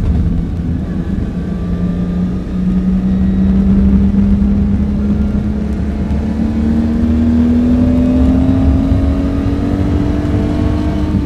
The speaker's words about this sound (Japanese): 丁寧に乗ることも必要。第一コーナーだ。シフトダウン。